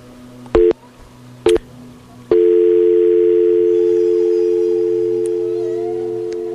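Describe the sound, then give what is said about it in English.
A steady electronic tone on a phone line during a call-in, preceded by two short bursts, then held and fading slowly toward the end. “You can hear that tone that oscillates. That frequency, that oscillating tone.”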